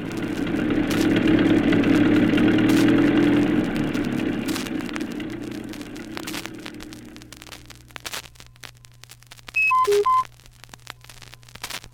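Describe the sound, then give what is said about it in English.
A car engine runs as she drives away, a steady broad rumble with a low hum beneath that eases off over the second half. “And away she drove.”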